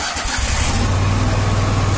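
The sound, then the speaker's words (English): A Kubota Commander zero-turn lawn mower engine starting: a brief rough catch at the outset, then a loud, steady low-pitched rumble that runs evenly to the end. “That's the sound of the Commander, Kubota's top-selling zero-turn mower.”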